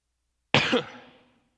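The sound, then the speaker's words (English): A single sharp cough bursts out and then trails off over about a second, heard on its own with no talking. “Ah, man, this is bad. Sorry, guys. Anybody by chance have a cough drop?”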